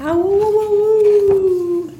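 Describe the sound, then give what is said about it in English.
A long howl from dingo pups on desert dunes, one sustained mid-pitched tone that rises slightly at the start, holds steady, and drops away at the end, loud and alone. “Frisky dingo pups race up the desert dunes to howl at the moon.”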